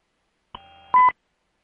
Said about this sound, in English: I think we got a beep there.